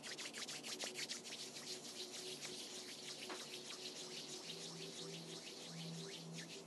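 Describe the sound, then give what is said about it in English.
Hands rub together, a faint continuous dry swishing of skin on skin made of many quick, even strokes that keep a steady, soft level throughout. “Gently bringing the hands together when you're ready and starting to rub the hands.”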